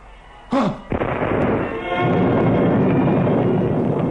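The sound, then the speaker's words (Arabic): A cannon fires at an English military camp in a drama scene: a sharp, loud blast, then a second quick burst, followed by a long, dense rumbling roar that holds steady to the end. “الله، ده المدفع ضرب. ضرب في الانجليز.”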